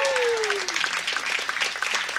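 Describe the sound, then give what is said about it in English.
Audience applause for jazz musicians at a live show: a dense, steady patter of many hands clapping that carries through the whole stretch at moderate loudness. “How about a round of applause for Bill Stewart on the drums, the great Bill Stewart. Kevin Hayes at the piano. Put your hands together for Kevin Hayes.”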